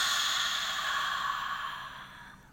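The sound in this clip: A slow, deep, breathy exhale released after a held breath during a relaxation exercise, a steady airy rush that fades gradually over a couple of seconds.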